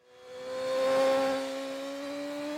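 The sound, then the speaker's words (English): Engine whine of a BMW RR superbike ridden on the limit by road racer Peter Hickman, a steady, harmonic-rich drone that swells, eases slightly, then climbs a little in pitch toward the end. “I wish I could say that was me riding that double R on the limit, but it was Peter Hickman.”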